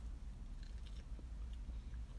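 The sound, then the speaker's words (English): Chewing and biting sounds from someone eating a Taco Bell Breakfast Grand Scrambler steak burrito, with soft, continuous mouth noises over a low steady background and no talking. “So I got me a little steak burrito from Taco Bell. It's called the Breakfast Grand Scrambler Steak. So, yes, it's delicious.”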